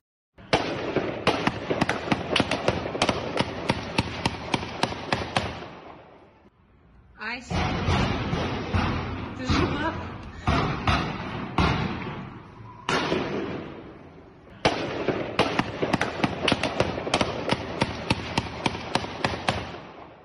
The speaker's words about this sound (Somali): rasaastana ka dul hilaacayso wuxuuna jawigu ahaa sida tan